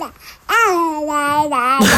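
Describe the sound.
A baby babbles in a sustained, sing-song voice while singing along to a song, holding a fairly steady pitch with small wavers, loud and clear after a brief softer opening sound.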